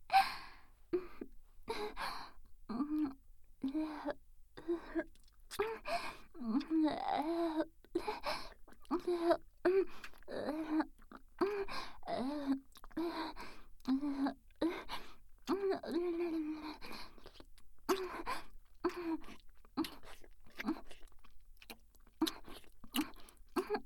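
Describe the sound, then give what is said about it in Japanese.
Wet licking and mouth sounds come in many short smacks and slurps, mixed with breathy voiced gasps and sighs. They form a steady, fairly quiet stream with no spoken words. “では精一杯の感謝でもって舐め取らせていただきますね。”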